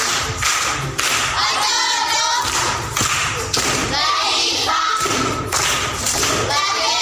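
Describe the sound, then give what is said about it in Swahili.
Audience applause for a Standard 7 schoolchild: dense, continuous clapping with soft thuds that holds a steady level throughout. “Makofi kwa Mwamba.”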